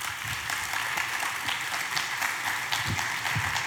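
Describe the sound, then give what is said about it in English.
Audience applause welcoming a woman onto the stage, a steady, even patter of many hands clapping at moderate volume from start to finish. “Would you put your hands together for her? Welcome her out.”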